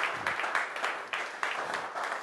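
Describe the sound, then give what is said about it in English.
Applause from a church audience, a few seconds of steady mid-to-high clapping with recurring small swells. “So go ahead and put your hands together. Some of you were feeling a desire to clap.”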